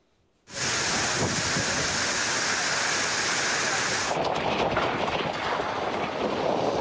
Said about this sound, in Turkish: Manisa'yı sağanak, dolu ve fırtına vurdu.